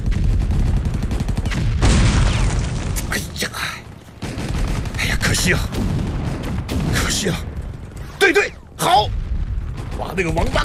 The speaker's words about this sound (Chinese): 二连， 用机枪掩护。